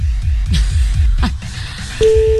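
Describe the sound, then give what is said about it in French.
A telephone call signal while calling someone at random in the Meuse, France: a steady, mid-pitched tone begins near the end and holds loudly to the close, following a couple of seconds of low, rhythmic sound. “Appelons des gens au hasard dans la Meuse.”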